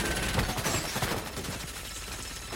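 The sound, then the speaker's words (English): Rapid gunfire from a machine-like robot in an action film: dense crackling bursts, strongest in the first half, then fading into a noisy rumbling background. “then the Terminator starts walking. It opens fire.”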